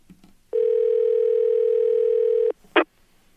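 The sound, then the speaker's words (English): A steady telephone dial tone hums for about two seconds as a call is placed, then stops and is followed by one brief, harsher burst of tone, with no talk. “we're going to give him a call right now.”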